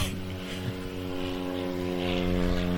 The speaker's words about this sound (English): Sorry for the plane going overhead. We're really close to the airport.